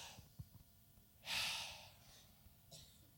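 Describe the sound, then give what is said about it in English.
An audience takes one huge deep breath together, a single swelling breathy rush that fades over about half a second. A fainter breath follows, with a few soft thumps before it. “Everybody do this for me. Take a huge breath. Just go.”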